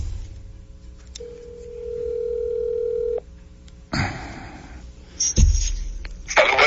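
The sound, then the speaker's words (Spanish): Outgoing WhatsApp call ringing out: a single long, steady ring tone over a low hum, followed by a few brief bursts of clicks and rustling noise. “yo lo voy a llamar por WhatsApp porque yo acabo de hablar con él. Vamos a ver, lo estamos llamando.”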